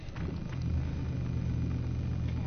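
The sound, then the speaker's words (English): Quiet automatic car pulling out of a solar garage in Midrand after being switched on. A low, steady rumble and hum swells slightly after the first half second, then holds even. “All right, the car's on. Silent. Okay, well, let's take it out of here and see what it does.”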